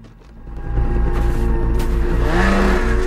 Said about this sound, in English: He climbs on and speeds across the snow, wearing his white camo suit. His motor sled sprays snow into the air as he glides it down a steep hill.